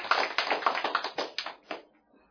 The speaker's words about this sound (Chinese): 来，热烈掌声。